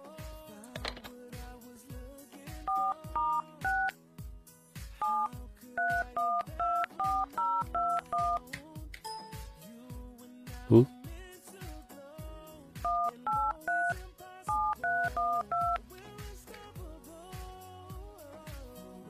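Telephone dialing tones: many short, bright keypad beeps arrive in quick groups separated by brief pauses, over a steady, regular low pulse.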